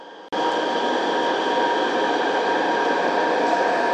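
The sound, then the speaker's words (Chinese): Subway train pulling into Shahe University Park Station, a loud, steady rumble and hum with several sustained whining tones. It begins abruptly after a brief quieter moment. “沙河高教员站到了。We are arriving at 沙河 University Park Station.”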